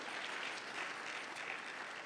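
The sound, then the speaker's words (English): A faint round of applause from the audience at an induction dinner, even and continuous, a soft bed of many hands clapping. “Let's have a round of applause for them.”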